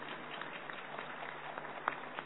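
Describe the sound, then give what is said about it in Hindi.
Audience clapping during a talk about heart patients treated without surgery. Steady, dense applause runs through the whole clip, with a few sharper claps standing out and no talking. “जोर से ताली बजाइए,”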